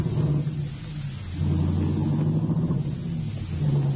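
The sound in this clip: Steady low rumble of a car being driven, with continuous engine and road noise at moderate loudness that swells slightly partway through and holds without a break.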